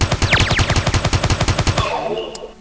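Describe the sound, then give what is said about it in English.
Gunfire from a mini pistol in a video game: many quick shots in a steady, rapid rhythm for almost two seconds, then the firing stops and a faint tail fades out. “I'll use the mini pistol.”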